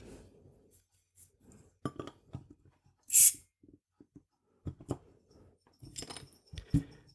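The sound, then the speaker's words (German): Glass clinks and handling taps from a small 0.33-litre bottle of dark unfiltered beer being opened, a few light irregular knocks with one short, sharp burst midway, otherwise quiet with no talk. “Vulkan äh, dunkel unfiltriert, hat 5,1 Umdrehung, eine 0,33er Flasche, und äh, die teste ich jetzt mal für euch.”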